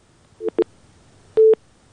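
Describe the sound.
Telephone line tones as a call-in drops, with two short beeps followed by a longer steady beep at the same pitch, clear and alone over quiet line noise.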